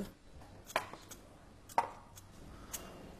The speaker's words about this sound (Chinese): 我把土豆皮削了